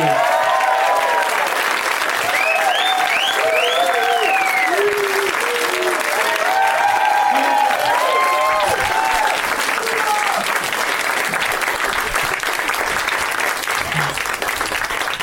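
A live comedy audience at the UCB theatre applauds loudly as guests are welcomed on stage. Sustained, dense clapping runs the full length, with whoops and cheers rising over it.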